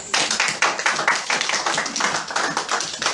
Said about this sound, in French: Applaudissons pour lui.